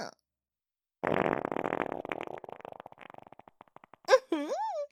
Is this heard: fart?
yes